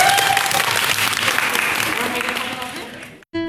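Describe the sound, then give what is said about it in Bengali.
Loud, sustained applause for the winning team of a quiz contest at a college event tapers slightly and then cuts off abruptly, followed by a brief return of sound. “তো একটা জোরদার তালি হয়ে যাক তোমাদের জন্য।”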